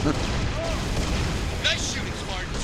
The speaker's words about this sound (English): That looks important. Should I blow it up? Absolutely.